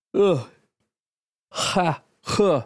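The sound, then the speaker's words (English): Someone stifles a yawn, making breathy, voiced sighs in three bursts. A short one comes first, then a pause, then two longer drawn-out groaning exhales. “tried to fight through that yawn there.”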